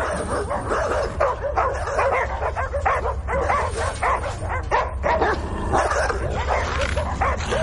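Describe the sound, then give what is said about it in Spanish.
Caged dogs bark in a ferry hold: many overlapping barks and sharp yips mixed with whimpers, sounding continuously and loudly throughout without a pause. “En la bodega de un ferry hay perros enjaulados.”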